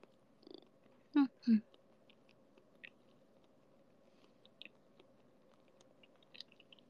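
A cat chewing and eating eel, with two loud bites early on followed by faint, sparse crunches and wet clicks, quiet overall.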